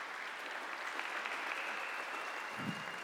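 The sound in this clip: A church audience at HUMC applauds to welcome a guest, a soft, continuous wash of clapping hands that stays even in level from start to end.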